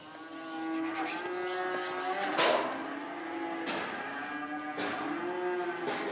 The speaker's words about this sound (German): Heute hilft sie zum Beispiel ihren Mitarbeitern dabei, Jungtiere auf einen Transporthänger zu treiben.